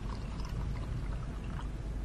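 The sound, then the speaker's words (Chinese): Red wine is poured into cups one after another at a dinner table, making a continuous, fairly quiet gurgling, splashing stream that stays steady throughout without pauses. “殷勤地为众人一一斟酒。”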